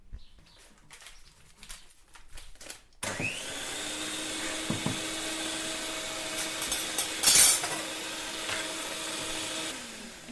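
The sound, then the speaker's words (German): An electric mixer beats eggs with sugar and butter until fluffy for a yeast dough. After a few quiet knocks, the motor starts with a sudden steady whine and runs for several seconds with occasional bumps of the beaters. “Zuerst müssen wir die Eier mit dem Zucker und dem Butter schaumig schlagen. Okay, damit fange ich mal an.”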